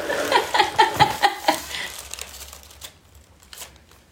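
Crinkling wrapping being pulled off a wrapped bottle at a tasting: a quick series of crisp rustling bursts that gives way to fainter, scattered rustles.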